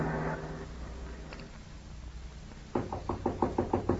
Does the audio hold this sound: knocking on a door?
yes